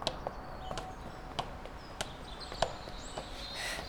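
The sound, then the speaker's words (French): Children climb the stairs of the Eiffel Tower, their footsteps faint and fairly regular, a series of soft taps with a few sharper ones standing out. “les enfants se dirigent vers la Tour Eiffel et commencent leur ascension. Allez, viens, on monte jusqu'au dernier étage.”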